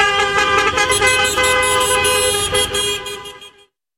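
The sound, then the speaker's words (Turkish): Taxis honking car horns in a convoy after a taxi drivers' protest: many overlapping, sustained horn blasts make a loud, dense blare over low traffic rumble, then stop abruptly near the end. “Taksiciler eylemin ardından konvoyla korna çalarak korsana karşı seslerini duyurmaya çalıştı.”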